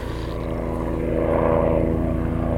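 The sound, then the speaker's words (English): A helicopter flying overhead, about two miles off, gives a steady, loud, low thrumming rotor drone with a rich harmonic hum that swells slightly midway and stays continuous throughout. “Oh, I can see the helicopter. About 2 miles away, probably. Hope he fucking lands, he's ruining my podcast.”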